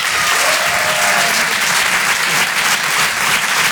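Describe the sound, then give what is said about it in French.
Applause at a comedy club, where an audience claps to welcome a comedian onto the stage, forms a dense, steady roar of many hands that stays loud from start to finish. “Faites du bruit, un maximum de bruit s'il vous plaît pour Jason Brokers.”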